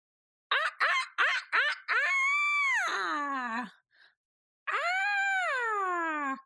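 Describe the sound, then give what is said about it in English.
A person imitates a chicken squawking: four short clipped squawks in quick succession, then a long wavering cry that drops at the end, a brief pause, and another drawn-out, loud squawk. “I'm going to squawk you guys out.”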